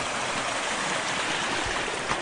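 A creek flows beside a cleared campsite among willows, a steady rushing, gurgling wash of water that continues evenly without a break.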